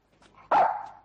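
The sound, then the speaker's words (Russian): A shaggy dog barks as it leaps from the opened door of an Mi-2 helicopter: one sharp, loud bark with a short trailing tail, preceded by faint rustling. “Из открывшейся двери вертолета Ми-2 выскакивает лохматый пес.”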